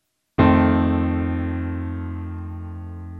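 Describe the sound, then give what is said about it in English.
Piano chord, an F dominant seventh voiced with F in the bass and E flat on top, struck once and left ringing, fading slowly over a few seconds. “So the voicing again for the F dominant 7th chord is F on the bottom, E flat on top.”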